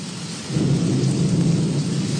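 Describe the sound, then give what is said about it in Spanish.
Heavy rain and strong wind during a storm in San Marcos municipality make a dense, steady roar, loud throughout and swelling slightly after the first half second, with no voices. “Está buena la lluvia, paisano, está precio. La lluvia. Mucho viento.”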